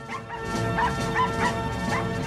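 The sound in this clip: Dogs bark and yip in short repeated bursts: an elderly woman's two dogs setting off on a walk down a street. The barks sit over a steady droning background tone.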